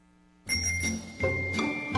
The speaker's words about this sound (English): hold on, let me get my bell. Hold on. I can figure out how to work it.